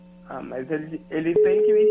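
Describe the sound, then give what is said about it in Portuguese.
A steady telephone line tone begins partway through as someone places a call, holding at an even pitch to the end. Before it, people talk, and their voices continue briefly over the tone's start. “deixa eu ligar pra ele aqui, peraí, só um minuto.”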